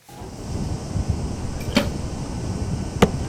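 Arrows striking an archery target during the final shots of a mixed team gold medal match involving Korea: two sharp, brief impacts, well spaced, over a steady low hum.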